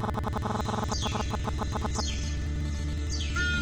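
Bird calls, among them a golden eagle, sound as three high, thin descending cries spaced about a second apart over a low, rhythmic pulsing background.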